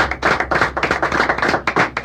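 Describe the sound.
Applause in a studio for young Venezuelans: a dense, steady run of many hands clapping. It is loud and sharp, with quick overlapping claps and no voices.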